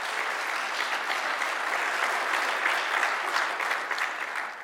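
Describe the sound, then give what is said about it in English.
A church audience clapping their hands during a morning service: a dense, continuous roar of many hands applauding, steady and fairly loud throughout with no pauses. “let me hear your hands this morning.”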